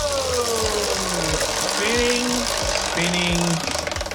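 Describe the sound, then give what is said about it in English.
A prize wheel spinning in a quiz game, a rapid and steady stream of ticking clicks that runs almost throughout. Voices are heard talking over it. “do you want a big spin or a little spin here on the wheel? Big spin. All right, big spin to choose the category here. We go!”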